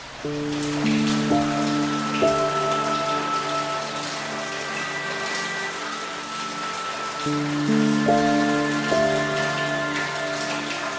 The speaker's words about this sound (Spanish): Veo a través de mi ventana como pequeñas gotas de lluvia tintinean sobre el cristal, se estremecen bajo la suave caricia de la brisa